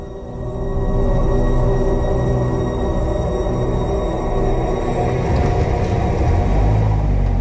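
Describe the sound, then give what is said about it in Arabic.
A car parks in front of a hotel, its engine giving a continuous low rumble that swells in and holds steady. The texture grows rougher toward the end. “سمع صوت عربية بتركن قدام الفندق.”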